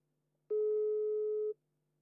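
A single telephone ringback tone plays while a call is being placed. It is one unbroken beep of about a second at a steady pitch, with no voices around it.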